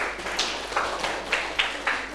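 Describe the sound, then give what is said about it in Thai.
Classroom clapping for a classmate: a faint series of sharp claps in a loose rhythm, repeating over a couple of seconds. “ปรบมือเพื่อนหน่อยครับ”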